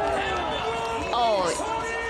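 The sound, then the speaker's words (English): A crowd cheers and shouts after a won match, with overlapping voices forming a steady din and one shout standing out briefly midway. “Everyone was just cheering, shouting.”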